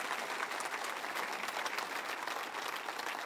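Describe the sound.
A church audience applauding during a worship service: dense, steady clapping from many hands that holds evenly throughout at a moderate level, with no talk.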